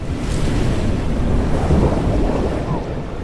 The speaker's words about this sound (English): Four giant streams of water rise from the water below the bridge and arc above Zhao. The streams form a huge sphere of water that encloses Zhao.